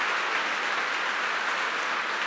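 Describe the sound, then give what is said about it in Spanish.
Applause for Jesus during a sermon: dense, steady clapping that holds at an even level for about two seconds, with no talking over it. “Alguien debería darle un aplauso a nuestro Señor Jesús con todo su corazón.”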